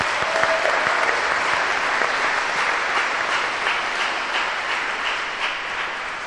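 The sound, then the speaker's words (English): Applause for a church pageant in a cathedral, with dense, even clapping that stays at a steady level throughout. “Let's give a hand to our wonderful pageant.”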